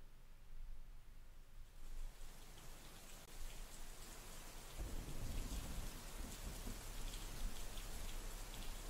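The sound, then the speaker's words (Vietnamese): Heavy winter rain falls at night in the countryside, a steady, dense hiss of drops that grows fuller partway through, joined by a deep rumbling swell. The whole scene stays soft and continuous. “Hiếm khi tiết đồng chí mà mưa nặng hạt như thế này.”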